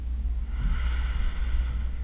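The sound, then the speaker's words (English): A deep, slow inhale through the nose during a guided breathing exercise: a soft, steady airy hiss lasting about a second and a half, faint and alone. “With your next inhale, pull it in deeply through the nose.”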